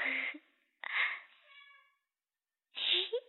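A cat meowing: a few short, faint calls, the middle one longer with a trailing tone.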